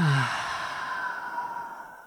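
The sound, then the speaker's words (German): A long, breathy sigh as a deep breath is let out through the mouth, loud at first and then slowly fading away, heard alone without any talking. “Atme einmal tief ein und atme durch den Mund aus.”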